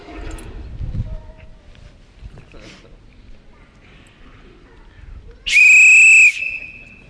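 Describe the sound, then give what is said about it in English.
A referee's whistle is blown once, a loud, piercing, steady blast lasting under a second. Quieter talk comes before it. “you never heard anybody do that in church before, have you? This is a referee's whistle.”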